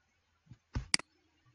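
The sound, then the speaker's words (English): Computer mouse clicks while selecting an interlinear view on screen: a soft knock and brief rustle, then two sharp, quiet clicks in quick succession, in otherwise near silence. “Then I'll click on the interlinear,”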